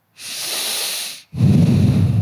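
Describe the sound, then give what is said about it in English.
Breathing in through the nose: a steady, airy hiss lasting about a second, then, after a brief gap, a louder and rougher breath with more low rumble. “if you breathe through your nose and then you move your head all the way”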